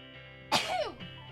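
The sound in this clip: A single sneeze: a sudden, sharp burst of breath followed by a short, falling vocal tail, quiet overall.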